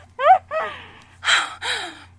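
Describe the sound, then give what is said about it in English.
A person's breathy gasps: a few sharp, voiced intakes of breath and sighing exhales in quick succession, moderately loud, with no words. “Oh God, I gasp.”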